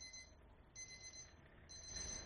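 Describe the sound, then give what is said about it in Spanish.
An alarm clock rings in a faint, high-pitched tone that repeats in short bursts separated by brief gaps, over a low steady background. “Es la quinta vez que apagas el despertador.”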